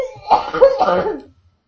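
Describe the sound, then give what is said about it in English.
A person laughing hard breaks into a short run of loud, rough coughs that trail off into silence. “the person who is laughing so hard they're coughing.”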